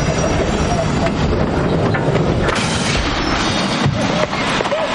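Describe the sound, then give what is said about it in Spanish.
Night train slowly pulling into a station, a loud, steady rumble of rail cars with rattling clickety-clack throughout. “De noche el tren se detiene lentamente en una estación.”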